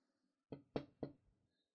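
Someone knocks on a door three times. The knocks are quiet, sharp and evenly spaced, with silence before and after.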